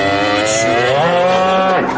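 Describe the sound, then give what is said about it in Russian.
A cow moos in an animated cartoon: one long, loud, harmonic moo lasting about two seconds that rises slightly in pitch and then drops at the end, heard alone without talk. “Появляется корова, подруга Юлия. Лизнув Юрия в морду, поднимает голову.”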